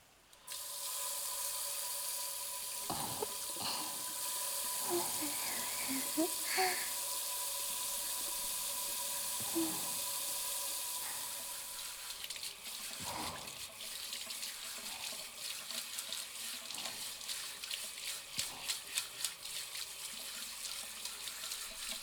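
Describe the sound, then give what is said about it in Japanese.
A shower runs hot water to rinse shampoo and body-wash foam away: a steady, full hiss of spray that continues unbroken throughout, with a few small splashes and knocks scattered over it. “シャワーで泡洗い流していこっか。 お湯出すね。”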